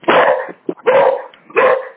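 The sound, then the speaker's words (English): A dog barks three times in loud, full barks, with a short, softer yelp between the first and second, and no talk over them. “I think Tony's got his dog there, but... sorry about that. I'll mute it for a second.”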